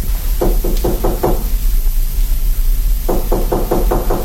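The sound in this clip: Knocking on a door of a bedroom in a duke's palace: a quick series of five firm raps, a pause, then a second series of six raps, over a steady background hum.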